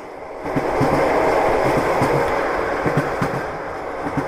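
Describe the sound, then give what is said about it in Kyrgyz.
A train runs along railway tracks with a steady, loud rumble and repeated clacking of wheels over the rails. The sound swells at the start and eases slightly toward the end, with no voices. “поезд салып уруп кетип баратат”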